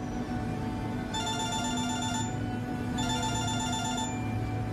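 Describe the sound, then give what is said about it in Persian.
A telephone rings with an incoming call from a hospital: two sustained bursts of bright electronic ringing separated by a short pause, over a steady low background hum. “تماس از بیمارستانه. الو؟ بله بله آقای دکتر.”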